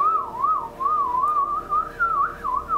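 A person whistles to imitate a creature's call in the woods: one continuous, clear, mid-high tone that warbles up and down in repeated wavy swoops, heard alone without speech.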